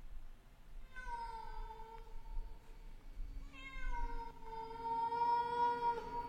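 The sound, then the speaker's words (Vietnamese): A cat meowing faintly from afar, two long, drawn-out meows with a short gap between them, the second held longer and steadier than the first. “thì có tiếng con mèo văng vẳng kêu lên, nghe đến giật mình lạnh người”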